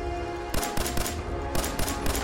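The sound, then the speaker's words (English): Video game gunfire erupts as a burst of several sharp shots in quick, uneven succession. “I shot his head off.”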